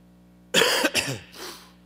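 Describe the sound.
Coughing and throat clearing from a tickle in the throat: a few rough, breathy bursts in quick succession, the first strongest, trailing off into a softer rasp, with no talk.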